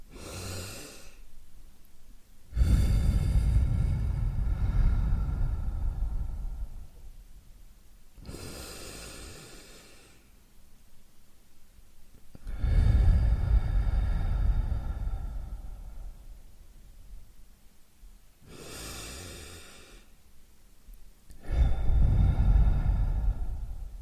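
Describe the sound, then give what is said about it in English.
Three slow, deep breaths taken by an open window in the morning. Each one is a quieter breath in followed by a long, loud, rushing exhale, with quiet gaps between them and no talking. “And take three breaths. So, something like this.”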